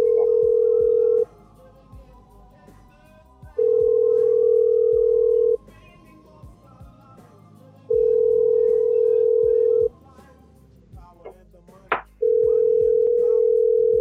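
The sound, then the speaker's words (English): Ringback tone on an outgoing phone call: four steady mid-pitched tones, each about two seconds long, separated by longer gaps in a regular rhythm, with faint background noise between them. “we're wasting our time calling you to prank you. You better pick up the phone.”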